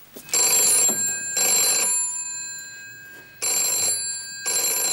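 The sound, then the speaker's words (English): A telephone bell rings in a bright, loud double-ring pattern, two pairs of rings with short gaps between, with no voices over it. “Excuse me. That's the phone.”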